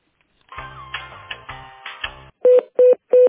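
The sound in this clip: Telephone line sounds while a call is transferred to a specialist: a stretch of tonal, melodic signal over low pulsing bass, then three identical loud beeps evenly spaced and clipped short.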